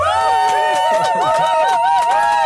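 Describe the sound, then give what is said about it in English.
A recorded whoop sound effect made by a group of people in a radio studio: loud, wavering voiced cries and hollers over lively crowd babble, continuous throughout. “I've got sound effects. This is mad. Yeah, that's a little whoop we recorded”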